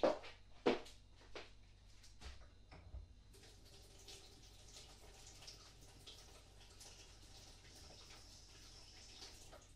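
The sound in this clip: Water running from a sink tap after a few soft knocks, the faint start giving way to a steady, quiet rushing hiss that continues to the end.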